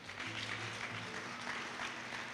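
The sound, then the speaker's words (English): An audience claps hands during a church service, a faint, even patter of many hands that continues without a break. “Clap your hands.”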